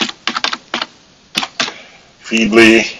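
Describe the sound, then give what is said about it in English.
Computer mouse clicks in a web browser: several sharp, dry clicks in an irregular series, then a pause and a voice speaking. “So I'll click on Feedly. I'll click on Feedly using a browser there where I'm not currently subscribed to Feedly, so you can get a sense of what that looks like.”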